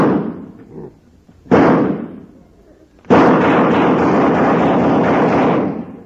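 Gunshot blasting through a wall: a sharp burst rings out, then a louder blast follows and holds as a dense, roaring crash for about three seconds before fading out.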